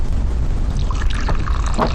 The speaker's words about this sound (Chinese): 来，倒水。